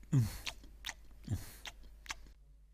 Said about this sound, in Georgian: გადატეხეს ნამცხვარი და გემრიელადაც მიირთვეს.